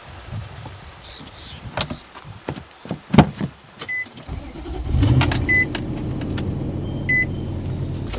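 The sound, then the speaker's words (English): A car on winding country roads in Columbia County, Oregon: a few sharp clicks and thumps come first, then a low engine rumble settles in steadily, broken by short, high electronic chime beeps. “As I drive the winding roads of Columbia County”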